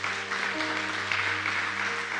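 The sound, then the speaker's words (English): Congregation clapping at a church service, a steady, even wash of many hands held at a moderate level, with sustained musical tones running underneath and no speech. “give the Lord one more hand clap”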